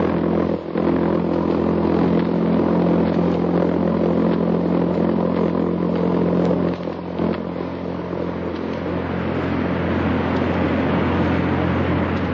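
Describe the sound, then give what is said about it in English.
Droning buzz of a jet-propelled V-1 flying bomb in flight in a 1944 wartime recording: a coarse, pulsing engine rasp with a low humming core, loud and unbroken, dipping briefly just past the midpoint before continuing. “In Europe, that sound means death and destruction. It's the sound made by the jet-propelled buzz bomb, Hitler's weapon of vengeance.”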